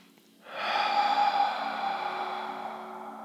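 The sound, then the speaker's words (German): Breathing exercise with a long, breathy exhale through an open mouth after breathing in through the nose, starting abruptly, sustained and slowly fading over about three seconds. “hier mal durch die Nase ein und durch den geöffneten Mund, wenn dir danach ist, ausatmen.”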